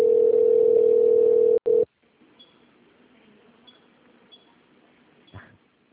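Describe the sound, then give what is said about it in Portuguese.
A telephone line tone plays during a call transfer: one steady, droning electronic tone that breaks off briefly and then stops. Faint clicks follow in near silence. “Por favor, aguarde enquanto transfiro sua ligação para um dos nossos atendentes.”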